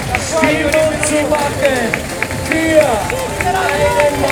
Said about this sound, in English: here they come. I think they're coming by. It's hard to tell. Everyone's just getting crazy. Crowd's going wild.